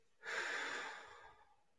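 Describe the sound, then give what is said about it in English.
One slow, soft breath during a guided breathing exercise, a faint airy hiss that rises quickly and then fades gradually over about a second, alone with no speech. “Breathe in. Breathe out.”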